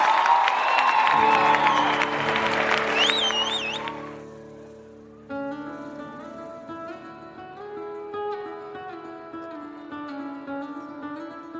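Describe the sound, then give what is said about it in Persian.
An audience applauds and cheers for a performer, a dense burst of clapping with whistle-like whoops that fades out after about four seconds, followed by sustained musical tones. “یه دست خوشگل بزنید به افتخار استاد عزیزم بابک زرین. یه دست خوشگل بزنید به افتخارش.”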